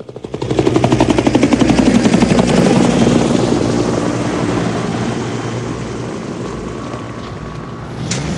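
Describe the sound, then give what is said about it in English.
A helicopter comes in to land on a wet landing area with puddles. Its rotor beats a loud, rapid, steady thudding over a whining engine, swelling in early and then easing off slightly. “On a vast landing area glistening with puddles, helicopters are dotted around. Armed policemen in black uniforms and visored helmets. A helicopter comes in to land.”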